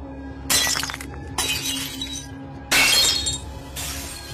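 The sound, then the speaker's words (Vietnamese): Objects from an altar fall and smash on the floor in four loud crashes of breaking glass and clattering shards, spread across a few seconds with brief gaps between them. “những thứ trên bàn thờ đang rung lắc rồi đổ vỡ tan tành ở dưới nền nhà.”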